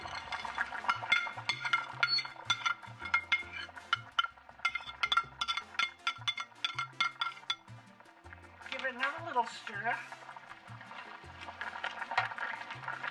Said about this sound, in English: The water has come to a boil. Give it a little stir. And add my seasonings.